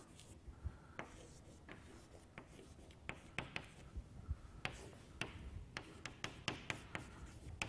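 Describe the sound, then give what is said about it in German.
A lecturer writes on a board during a mathematics lecture, making faint scratching strokes and many sharp taps. The taps come in an irregular rhythm, some closely spaced and some isolated. “Oder ich schreibe Ihnen das nochmal ein bisschen anders auf.”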